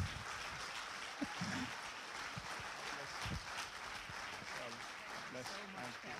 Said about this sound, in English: Let's put our hands together and give her a warm welcome here this morning.